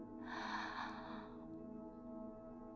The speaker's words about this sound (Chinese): 现在深吸一口气，吸气，像我这样，